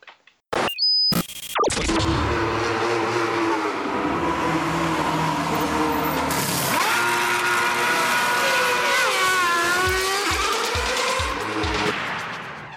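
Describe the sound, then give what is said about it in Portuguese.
An intro jingle for a motor racing program is built from racing car sounds. After a few short tonal blips, engines roar loudly throughout, their pitch sweeping up and down in several passes, and a series of low thumps comes near the end. “Dito isso, vamos passar a vinheta, vamos começar mais uma edição do Café com Velocidade”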